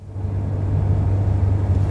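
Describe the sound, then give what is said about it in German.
Steady low engine rumble of a fast car driving along a road, a continuous droning hum that holds evenly throughout with no voices. “Es war ein sehr schneller Wagen, mit dem wir durch die Gegend brausten.”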